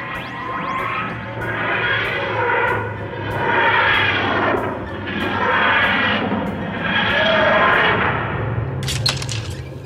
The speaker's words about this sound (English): I need to do an emergency landing. hold on.